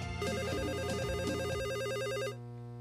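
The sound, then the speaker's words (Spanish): A telephone rings for an incoming call to a radio call-in show: an electronic warbling trill, loud and evenly pulsed, lasts about two seconds and then cuts off, leaving a steady low tonal bed underneath. “En Idaho, tenemos llamada.”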